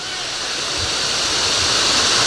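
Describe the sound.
Heavy rain pouring down during a storm, a dense, unbroken hissing roar that grows slightly louder over the few seconds.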